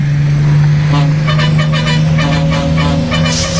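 A car drives along the road, its engine giving a loud, steady low drone with a continuous hum and road rumble throughout.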